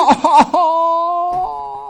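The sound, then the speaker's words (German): A voice imitates exaggerated crying at a funeral: a few choppy, sobbing bursts give way to a long, steady wailing moan, with a brief catch before the tone resumes. “Und dann da so auf die Beerdigung und dann so weinen wie der Anchorman.”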